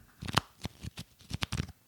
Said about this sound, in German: Ich habe sogar hier liegen, Achtung, das ist der Sound von Wrestling-Sammelkarten.